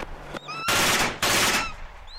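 Automatic gunfire in a video game comes in two long, dense, loud bursts separated by a brief gap, with short bird-like chirps before, between and after them.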